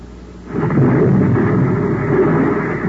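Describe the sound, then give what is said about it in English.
A hand grenade explosion bursts in about half a second in, a sudden loud, deep boom that swells into a heavy low rumble and holds steady to the end, with no voices. “What about the hand grenade? Yeah, I guess the time's about up.”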